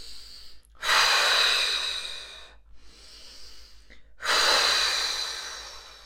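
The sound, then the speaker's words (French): Two deep, slow breaths during a guided relaxation exercise, each a long airy rush that swells and then gradually tapers off, separated by a quieter pause. “À l'aide de nos respirations, symboliquement, nous évacuons les tensions inutiles au niveau de notre cinquième système, le bas de notre corps.”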